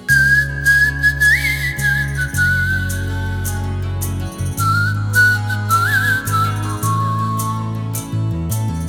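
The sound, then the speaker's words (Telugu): Someone whistles a tune of long held notes with small upward slides between them. The clear, loud melody carries on without pause over a steady low tone. “ఇప్పుడు విజిల్తో నేను tune ఇస్తాను, నువ్వు దానికి పాట పాడాలి, సరేనా?”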